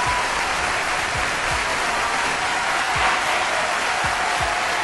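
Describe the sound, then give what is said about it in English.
Cheering sound effect of a crowd clapping and whooping, a loud, dense, unbroken roar of applause lasting the whole stretch, with a few dull low thumps beneath it. “Where's my cheering sound effect? Hold on.”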